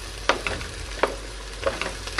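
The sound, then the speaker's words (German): Onions, a little over 500 grams, fry in a pan until glassy and lightly browned, giving a constant sizzle with a few sharper scrapes and clicks of stirring on top. “schön angehen, bis auch die Zwiebeln glasig sind und können ruhig auch was Farbe haben.”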